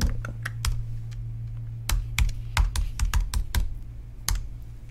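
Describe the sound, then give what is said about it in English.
A password being typed on a small computer keyboard: many irregular, clicky keystrokes in quick runs over a steady low hum, with no talk. “And now I have to type in the password again on this baby computer one.”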